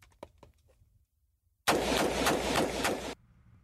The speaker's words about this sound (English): If I wanted to fire this on full semi-automatic, all I do is keep firing. Now, I won't probably hit the target when I do this, when we look at the target later on, but I'm going to fire about five shots.